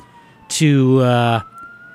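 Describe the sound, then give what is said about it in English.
Faint police sirens wail steadily in the background throughout, partly covered in the middle by a louder, brief tonal sound. “You can hear the police sirens in the background.”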